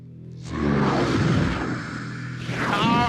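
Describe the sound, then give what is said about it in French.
A short jingle of whooshing, rumbling sound effects swells into a loud, dense boom, sustains, then ends on a brighter burst of tonal shimmer. “on en parle dans deux secondes après un petit jingle”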